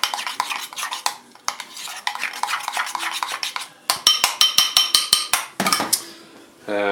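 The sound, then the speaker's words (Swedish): A utensil mixes about one and a half teaspoons of Dijon mustard into a sauce in a bowl for a Christmas dish, giving many quick, irregular clinks and scrapes against the bowl in clustered strokes. “Och sen tar vi dijonsenap. Ja, ungefär en och en halv tesked tror jag att det där blev. Blandar ihop det lite grovt.”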